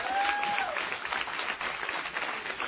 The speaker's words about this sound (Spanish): Dale un aplauso de gloria.